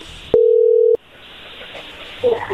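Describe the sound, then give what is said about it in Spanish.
A telephone number is dialed: a single steady electronic tone, lasting about half a second, sounds over faint line hiss, followed by a low, continuous line noise and a brief noisy burst. “Vamos a marcarle entonces a Alonso, a María Luisa y a ver qué sucede”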